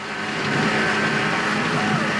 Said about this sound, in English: speeding over a beach in a small dune buggy, sand flying into his face